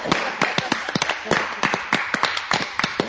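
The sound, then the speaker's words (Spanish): Scattered applause from a small audience at a live comics talk: sparse, irregular hand claps that come sharp and fairly loud, with no steady roar. “¡Un fuerte aplauso para el señor!”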